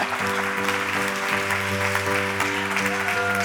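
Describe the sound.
Applause from an audience welcomes a speaker coming forward to preach. Sustained, held musical tones run beneath the continuous clapping.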